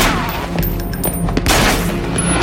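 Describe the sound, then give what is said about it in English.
Gunfire as a man opens fire in an apartment: a few sharp, loud shots burst out of a dense, noisy background over a short span. “As Isaac starts firing, Peter runs, becoming invisible.”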